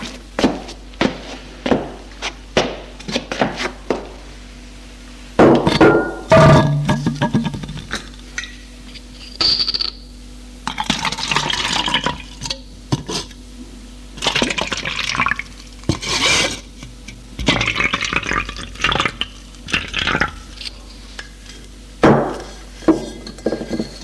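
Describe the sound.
Drinks poured from a bottle into three glasses set on a low table: glass clinks and taps are scattered among several short bursts of liquid filling, at moderate loudness with no talk.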